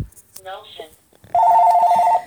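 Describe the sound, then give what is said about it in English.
A house phone rings: one loud, sustained warbling electronic ring burst lasting about a second, coming right after a brief stretch of a person talking. “There's my house phone. I'm going to ignore that.”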